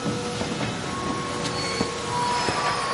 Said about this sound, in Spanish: Ya de noche el tren llega a su destino.